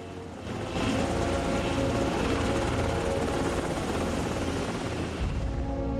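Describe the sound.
Helicopter in flight, banking as it turns, giving a loud, steady roar of rotor and engine that swells in after the first second and holds evenly to the end.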